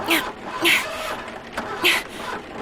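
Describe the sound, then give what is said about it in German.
A car engine being cranked over while sounding unhealthy, heard as a few strained, whirring bursts with gaps between them. There are no voices. “versuche, das Auto wieder zu starten. Das hört sich nicht gut an.”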